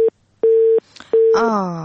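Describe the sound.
A telephone busy signal sounds after a call is cut off. Three steady, even beeps at one mid pitch are separated by short gaps, and the last is cut short as another sound begins.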